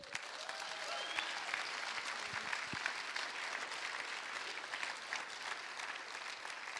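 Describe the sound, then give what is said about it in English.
Steady applause from an audience welcoming a woman introduced as the next speaker at a faith gathering, a fairly faint, even wash of clapping that continues without pause. “But as I introduce her, I want you to help me welcome Mandy Pena.”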